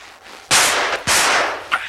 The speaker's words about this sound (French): Arrêtez! Arrêtez où je tire!